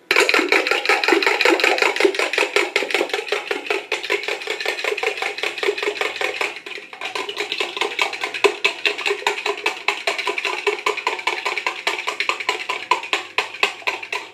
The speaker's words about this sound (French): Cassez des œufs. Et battez-les avec du lait et du sel.